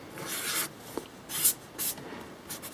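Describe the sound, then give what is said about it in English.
A pen draws a cartoon character on paper with faint, quiet scratching strokes. A few short bursts of rubbing are separated by brief pauses, and there is one small tap, with no voices. “I'm not drawing Peter very well today.”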